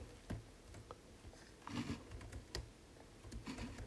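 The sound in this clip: Typing on a computer keyboard: faint, scattered key clicks come in irregular bursts, with a few sharper taps standing out against a low background hum.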